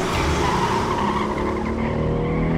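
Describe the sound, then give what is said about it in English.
A car accelerating hard with its tires squealing, a loud unbroken roar of engine and tire noise that holds steady throughout. “fear took over, and he stomped on the gas pedal”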